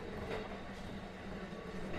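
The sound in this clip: A train pulls into a station, heard as a faint, steady low rumble of the moving carriages with soft rattling throughout and no clear stops or voices.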